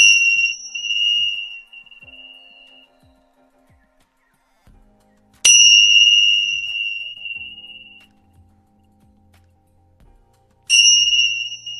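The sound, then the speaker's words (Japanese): A Tibetan bell is rung three times during an energy-healing session. Each strike gives a bright, high, shimmering tone that is left to ring and slowly fade before the next, with no talk over it. “チベタンベル鳴らします。”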